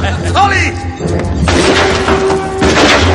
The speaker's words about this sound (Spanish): John tiene la pistola pegada a su espalda con cinta mano que mantiene tras la nuca coge la pistola y dispara.